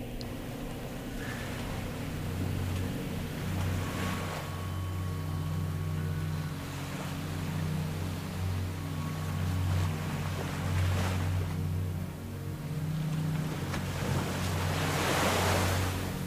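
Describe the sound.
Ocean waves roll onto the shore in a steady, loud wash of surf. The roar swells and recedes in slow surges, with deep rumbling underneath, and no voices are heard.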